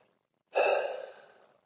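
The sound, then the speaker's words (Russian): A single deep breath drawn and released during a guided relaxation exercise, one soft breathy rush that starts abruptly, swells quickly, then fades slowly, heard alone without talk. “сделайте глубокий вдох, выдох”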